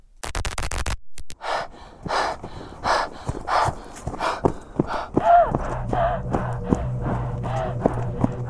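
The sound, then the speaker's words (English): Deep, heavy breathing of a woman striding across the red earth of an alien planet: a series of loud, rhythmic breaths, then a low sustained tone joins beneath the later, softer breaths. “Devon took deep breaths as she strode across the red earth of the alien planet.”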